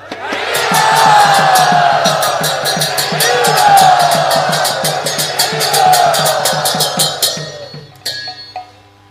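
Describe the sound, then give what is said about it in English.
Loud crowd cheering and shouting welcomes guests at a Punayatra gathering. Bright metallic clangs beat steadily through the roar, which stops abruptly near the end. “Everyone, please very loudly and enthusiastically welcome them.”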